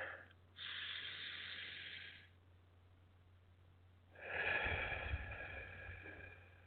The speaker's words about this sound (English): take in a deep breath.